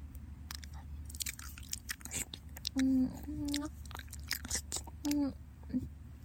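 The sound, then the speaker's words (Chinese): ASMR ear-licking sounds: an uneven stream of soft, wet smacks and clicks close to the mic, with a few short hummed moans rising above them. “舔您的耳朵的声音呀。试试看。”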